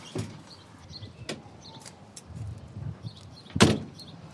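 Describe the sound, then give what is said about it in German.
A window being shut, heard as a few sharp clicks and knocks followed by a louder thump near the end, over a faint, quiet background. “Die Bank noch abschließen. Fenster zu.”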